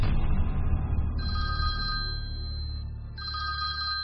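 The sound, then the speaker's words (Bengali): A telephone rings in two long electronic bursts, the second cut off at the end, over a steady low background rumble. “এথেনামুরের অন্তর্ধানের ঠিক দুদিনের মাথায় ফের বাড়ি থেকে phone. ফোনের শব্দে এখন আতঙ্ক হয়”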